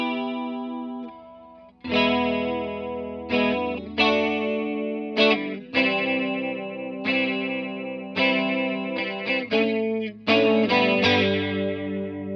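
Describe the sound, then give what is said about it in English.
An electric guitar played through a chorus effect pedal, set to a lower rate. A series of chords rings out and decays with a shimmering, wavering tone, picked in an uneven rhythm with no talk. “one of the reasons I bought the pedal is because of the artwork. But it's a really good chorus. I find like it's has usable settings”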